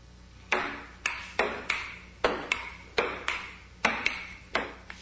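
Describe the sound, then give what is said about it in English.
A table tennis ball clacks sharply against paddle and table in a quick rally of many crisp, bright hits, spaced at a brisk, slightly uneven rhythm, each a loud click with a short ringing tail, and no voices. “So that was ping pong or table tennis”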